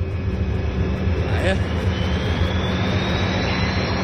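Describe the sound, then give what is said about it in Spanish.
An airplane sound effect: a steady, broad engine roar with a constant rumbling whoosh, and a thin whine running faintly through it the whole time. “Allá va mi amigo, el avión.”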